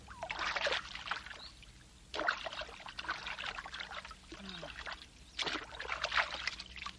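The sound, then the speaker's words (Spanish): Water is poured from a bowl over a woman bathing in a tub of hot water. Three splashing gushes, separated by quieter trickling and dripping, sound alone without voices. “echa agua sobre su madre con un cuenco”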